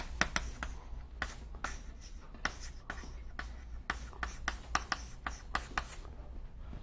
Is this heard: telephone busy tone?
no